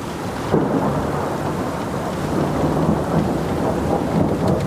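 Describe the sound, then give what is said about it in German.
Thunder rumbles through a heavy rainstorm at sea, with a loud, dense, continuous roar of rain and wind. A low rumble swells beneath it without distinct cracks. “Himmel und Meer brüllen, der Donner schmettert dazwischen.”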